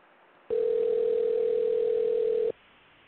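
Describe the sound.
A telephone tone as a call is placed: one steady, pure beep lasting about two seconds over faint hiss, starting and stopping abruptly.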